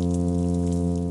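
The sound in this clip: A male plainfin midshipman fish hums in the Pacific Ocean: a steady, unbroken low drone rich in even harmonics, holding one pitch at constant loudness throughout.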